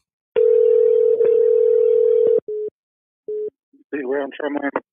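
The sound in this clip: Telephone line tone as a radio caller is put through: a steady pure tone holds for about two seconds, then two short beeps at the same pitch follow, and a voice then starts speaking.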